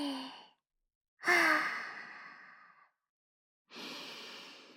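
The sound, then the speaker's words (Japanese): Deep breaths out as part of a calming breathing exercise: three voiced, sighing exhalations. The middle one is the longest and loudest and fades gradually, and the last begins near the end. “深呼吸。一緒にやろっか。吸ってー、吐いて”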